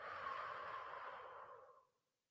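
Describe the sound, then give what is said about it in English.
Pursed-lip breathing in a breathwork exercise: a single soft, airy blow through puckered lips holds steady for about a second and a half, then fades out, faint and with no talk. “Inhale for two through your nose. Pucker your lips and blow for four.”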